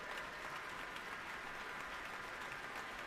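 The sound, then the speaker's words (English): The audience and the orchestra applaud at the end of an orchestral concert: a dense, continuous wash of clapping that stays steady and fairly faint throughout, with no clear breaks. “and the applause both from the audience and from the orchestra.”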